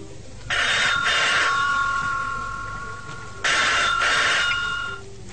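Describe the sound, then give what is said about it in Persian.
A telephone bell rings in two bright, rattling bursts, each trailing into a lingering tone, over a low, steady background. “باز دیدم زنگ میزنه مثل همیشه تلفن”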